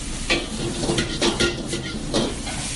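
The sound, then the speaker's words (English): Pad Thai noodles and egg stir-fry in a wok with a constant bright sizzle. A few louder scraping strokes of stirring rise and fall over it. “into the wok and cook together with the egg. This process is going to take about maybe close to two, three minutes until the noodle get very soft and cooked.”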